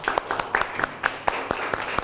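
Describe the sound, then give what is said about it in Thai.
Scattered classroom clapping for a classmate. A few hands strike sharp, uneven claps, spaced irregularly rather than forming a full ovation, at moderate loudness. “ปรบมือเพื่อนหน่อยค่ะ”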